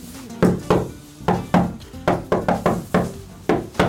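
Knuckles rap on the glass window between a studio and its control room. The knocks come as a quick, uneven series of many sharp taps, loud and clear with no talk over them.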